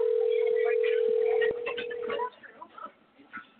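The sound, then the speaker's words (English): A steady telephone tone holds one unbroken pitch for about two seconds during a call-in hip hop radio talk show, with voices talking over it and continuing after it stops. “Can y'all hear the phone ringing or not? Y'all hear it? I think that was my phone.”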